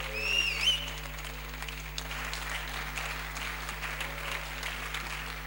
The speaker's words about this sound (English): Church, with a standing ovation and a hand, let's welcome Reverend Raphael Owusu-Entry as he brings the word of God to us this morning.